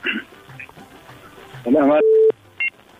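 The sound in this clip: Telephone tones sound as another call is dialed on a phone line: a brief voice, then a short steady mid-pitched tone, then a quick higher beep, over faint line hiss.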